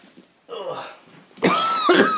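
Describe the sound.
A massive, harsh cough breaks out loudly in rough bursts, mixed with voiced sounds, after a quieter stretch of breathy noise.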